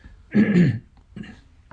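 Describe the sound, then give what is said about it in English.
Throat clearing from someone with a frog in the throat: one loud rasping burst, then a shorter, softer one and a faint final catch, with no talk. “Pardon me, I got a little bit of a frog in my throat, and I'm trying to clear it as I move along here.”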